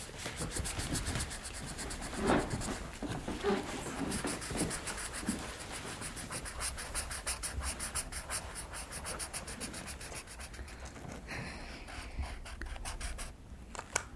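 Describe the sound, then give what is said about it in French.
Continuous scratchy rubbing of a drawing tool on paper as a flower and sun are drawn, with many short strokes in a steady, fairly faint rhythm and no talk. “En fait, je dessine une fleur et un soleil, puis après la fleur elle s'agrandit.”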